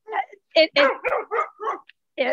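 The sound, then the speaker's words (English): A puppy barks in a quick run of short, high yips and barks, several sharp bursts separated by brief gaps, fairly loud. “Let me pause while that dog's out of the way. You're fine. I have a puppy. Have fun there, buddy.”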